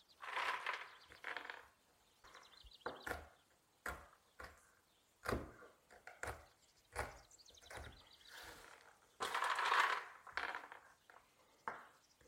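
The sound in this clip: Hazelnuts chopped by hand with a knife: many crisp cracks and crunches fall in an irregular rhythm, fairly faint, with brief pauses between bursts of cutting.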